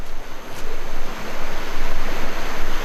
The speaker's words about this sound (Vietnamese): Những con sóng mạnh liên tiếp xô vào bờ.